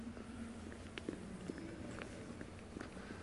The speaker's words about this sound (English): Walk over to that white line.